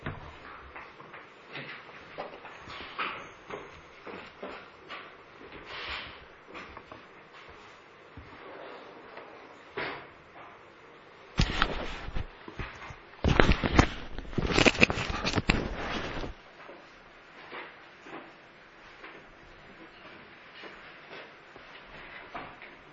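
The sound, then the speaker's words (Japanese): Windows being closed: faint shuffling and light knocks at first, then several seconds of loud rattling, clattering bursts as the frames slide shut, before the sound drops back to quiet handling noise. “では窓を閉めていただきます。”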